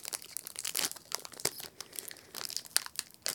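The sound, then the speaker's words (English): A cardboard box that was tossed around in shipping is cut open, making a quick run of scratchy crinkling and tearing sounds in many short, sharp bursts with no talking. “Let's cut that open there. The box did kind of get tossed around a little bit, you can kind of tell.”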